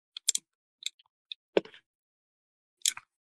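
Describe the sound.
Quiet, sparse clicks of typing on a computer keyboard while writing in a game's general text chat, a few irregular keystrokes separated by stretches of silence, with no voices.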